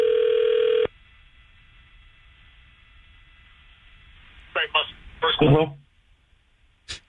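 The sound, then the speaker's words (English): Telephone dialing through a phone switchboard line: a steady dial tone lasts under a second, then cuts to a quiet hissing line, followed by a few short garbled bursts and a faint click at the end. “Why do I have to dial a 1? Different lines on this phone switchboard. All right, here we go. I dialed a 1. Hopefully now it goes through.”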